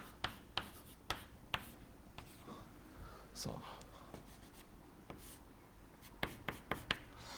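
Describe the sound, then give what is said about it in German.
Handwriting with a pen on paper while working through mathematical notation: faint scratchy strokes and soft taps, with a quick run of sharper ticks near the end. “ich habe gerade beschlossen, ich schreibe das.”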